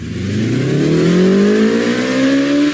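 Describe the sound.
A motorcycle engine roars and revs hard as a rider shows off during a motorcycle season opening on a narrow, crowded Old Town street in Warsaw. The sound is loud and continuous, its pitch climbing steadily as the revs build.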